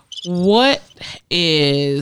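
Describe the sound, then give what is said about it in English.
Cricket chirping played as a soundboard button effect: two loud, sustained tonal bursts separated by a short pause with a brief faint blip between them, with no talk over the sound. “Crickets.”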